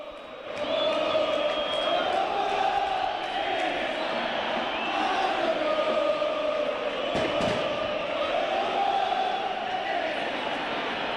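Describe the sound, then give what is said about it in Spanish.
Football supporters in a stadium crowd chant a song together, a loud, sustained sung melody that wavers up and down over a dense roar of many voices. “¿A qué se debe esta canción de los hinchas de Banfield?”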